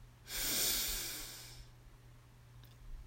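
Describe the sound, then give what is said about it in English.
A single slow, deep in-breath during a guided breathing exercise, a soft airy rush that swells and then fades over about a second, with quiet stillness after. “one last breath in. Breathe in.”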